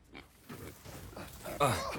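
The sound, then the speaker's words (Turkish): Rough grunts from a pig in an Araucaria forest in the South American highlands. A few short, throaty bursts come in an uneven rhythm, with the loudest grunt near the end. “bu domuz kolumun yarısını koparacak”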